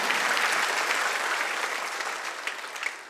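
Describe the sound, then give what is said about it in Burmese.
Congregation clapping hands in praise during a church sermon, a dense, steady wash of applause that holds at an even level for the whole stretch and thins slightly toward the end, with no voices standing out. “ဟာလေလုယာလက်ခုပ်တီးလက်ဘုရားကိုအားပါချီးမွမ်းရအောင်အာမင်”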